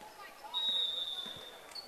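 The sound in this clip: A basketball being dribbled during a girls' high school game between Silver Lake and Giltner: a few soft bounces sit faintly under voices.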